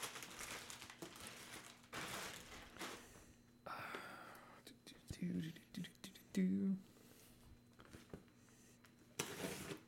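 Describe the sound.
Crinkling and rustling of packaging as a heavily taped DHL package, apparently shipped from China, is unwrapped, with irregular bursts of crackle and people talking and whispering between them.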